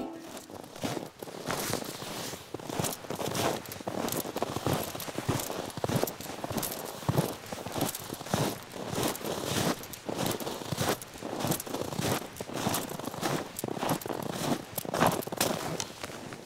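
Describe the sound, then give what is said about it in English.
Footsteps crunch on packed-down snow along a snow-covered one-lane dirt road in northern Ontario at night, making a steady run of many gritty crunching steps that continues throughout at an even level. “What you're hearing there is the sound of me walking on some packed down snow. I'm on a one-lane dirt road that's covered in snow in the middle of northern Ontario.”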